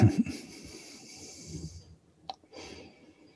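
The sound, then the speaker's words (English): Slow, deep breaths are taken with eyes closed at the end of a guided session. A long, soft, airy breath is followed by a pause and then a shorter second breath, both faint and hushed. “And so we'll end now with a couple of breaths. A couple of awe-inspiring breaths.”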